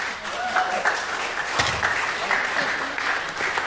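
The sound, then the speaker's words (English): An audience at a church gathering applauds, a dense, steady wash of clapping that holds at an even level for the whole few seconds. “this round of applause for our”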